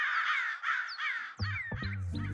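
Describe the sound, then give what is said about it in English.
Birds squawking together: harsh, crow-like caws come in a few overlapping calls over a busy layer of higher, continuous chattering, fairly faint overall and with no voices. “That's a favorite for me also because it's got all these different sounds of the birds squawking out together. Sounds like they're in the middle of their workday.”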